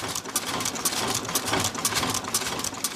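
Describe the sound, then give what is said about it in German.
A Schiffli embroidery machine runs at about 120 stitches per minute, giving a steady, fast, rhythmic mechanical clatter of regular bright ticks over a continuous whirring drone, with no voices. “Die Maschine läuft jetzt etwa mit 120 Stichen in der Minute.”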